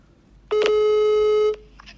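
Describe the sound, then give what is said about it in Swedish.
A telephone call tone sounds while a call is being redialed: one steady, mid-pitched electronic tone that holds for about a second and then cuts off, with quiet line noise around it. “Vi provar ringa upp dig igen”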